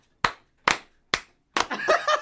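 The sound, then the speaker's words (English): Hands clapping in an office: three sharp, evenly spaced single claps, then a fourth clap that runs straight into laughter and voices. “he wants to clap all the time”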